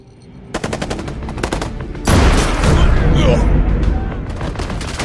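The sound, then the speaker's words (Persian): Sniper gunfire in an attack where an officer is shot: a rapid string of loud, sharp shots, then a louder, sustained roar of noise. “تک تیر انداز دارن، یه افسر تیر خورده، آمبولانس بفرستید.”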